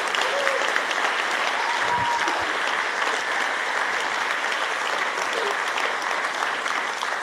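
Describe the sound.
An audience applauds to welcome a guest onto the stage, producing dense, steady clapping that stays loud and continuous throughout without fading.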